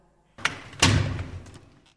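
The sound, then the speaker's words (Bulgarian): A cage door, an inner door and an outer door closing in turn: a sharp click, then a louder heavy thud with a lingering decay, then a fainter knock. “Първо клетката, после вратата, а накрая и външната врата.”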